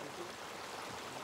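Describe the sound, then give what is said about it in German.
Water rushes steadily through an irrigation channel in dry Andalusia. The flow makes a continuous, even hiss and gurgle with no pauses. “Es ist doch eine Freude, so viel Wasser zu sehen. Besonders im trockenen Andalusien, wo es seit so langer Zeit nicht geregnet hat.”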